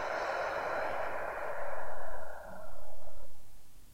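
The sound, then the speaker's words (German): Deep belly breathing: a long, airy inhale lasting about two seconds, then after a brief break a slow, breathy exhale of similar length, soft and heard alone. “Atme einmal tief ein in den Bauch und wieder tief aus.”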